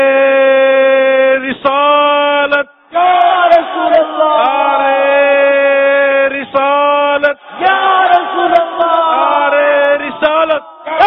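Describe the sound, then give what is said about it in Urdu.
Crowd chanting the religious slogan Ya Rasool Allah in unison, loud sustained voiced phrases repeated several times, each separated by brief pauses. “رسول اللہ کا نعرہ لگاتے جائیں گے. نعرے”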